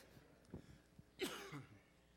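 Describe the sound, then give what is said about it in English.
Throat clearing by a preacher at a pulpit: a few short, gruff bursts, then a longer, harsher rasp, with no talk. “I think the devil's fighting me up here trying to clear my throat.”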